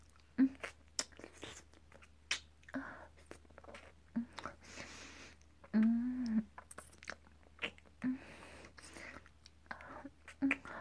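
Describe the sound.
Someone is chewing and eating food, with many soft, crunchy bites and wet mouth clicks at an irregular pace. The sounds are faint, with only a little whispery voice.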